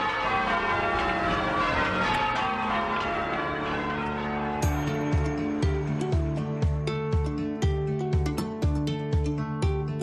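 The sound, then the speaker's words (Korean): Church bells change ringing in Boston, a set of bells of different weights struck in a precise order, giving many overlapping metallic strikes in a steady, even rhythm with long ringing tones that stay loud throughout. “이런 종소리를 전조타종이라고 부르죠. 주의 깊게 들어보면 아주 정확한 순서에 따라 종소리가 울려요.”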